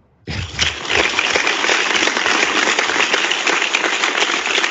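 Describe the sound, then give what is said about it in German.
Applause from an audience during a football discussion: a dense, steady patter of many hands clapping that begins abruptly and continues evenly to the end, with no voices. “Applaus.”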